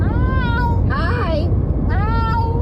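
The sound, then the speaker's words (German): A cat from an internet video gives short meows that sound like a spoken "hi". Harmonic, gliding calls ride over a constant noisy background, mixed with a human voice. “Im Internet gibt's ja auch immer Videos, so oft von Katzen. Da heißt es, guck mal, meine Katze kann sprechen.”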